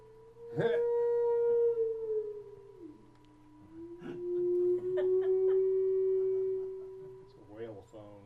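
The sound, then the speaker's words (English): Synthesizer tone drenched in reverb to sound underwater, a sustained low, warbling pitch that slides down and back up, with a few brief bubbly blips over it. “Let's add some verb. I think there's a lot of reverb underwater.”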